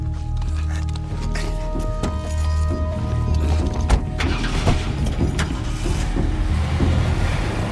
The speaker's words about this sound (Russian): Забрасывает сумку на сиденье. Мужчины садятся в автомобиль, уезжают. Поехали.